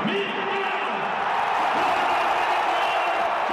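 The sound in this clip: Crowd ovation at a Heat vs 76ers playoff game as a rapper is welcomed home: a dense, continuous roar of cheering voices with scattered whoops, steady in loudness throughout.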